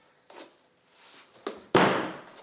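A kitchen door opens as someone comes in carrying grocery bags. A few soft thuds lead to one louder bang with a short fading tail.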